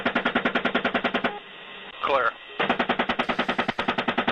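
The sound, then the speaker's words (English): Automatic gunfire, shooting at two men near a van, comes in two long strings of rapid, evenly spaced loud bursts. A brief quiet gap between them holds a short spoken word. “The sound you heard there is the shooting of two men who arrived in a van to try and save one of the wounded, shot down earlier.”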